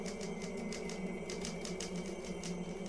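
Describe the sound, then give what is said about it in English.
Rapid clicking of typewriter keys as a young woman types at a study desk: many sharp, evenly paced strikes over a steady low hum. “She works on the typewriter, a cigarette in her lips.”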